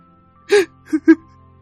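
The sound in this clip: Woman sobbing too hard to speak, heard as three short, catching, breathy sobs: a longer one first, then two quick gasps close together, with no words.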